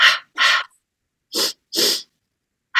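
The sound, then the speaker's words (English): Breathwork in a two-by-two pulse pattern: two quick, sharp nasal inhales followed by two longer, airy mouth exhales, then the cycle begins again, each breath distinct and alone. “you're going to inhale twice through the nose and out through the mouth 2 times.”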